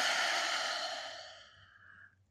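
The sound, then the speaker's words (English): A single deep exhale through an open mouth during a guided breathing exercise, a long breathy rush of air that starts full and steadily fades away over about two seconds, heard alone. “Take a deep inhale through your nose, the deepest breath you've taken all day. Open mouth, exhale, let it go.”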